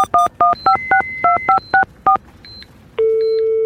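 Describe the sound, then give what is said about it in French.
Keypad tones as a telephone number is dialed: nine quick, evenly spaced beeps in a brisk rhythm, then a few fainter tones and a steady sustained tone to the end. “Bon, maintenant il faut que j'appelle Nathalie.”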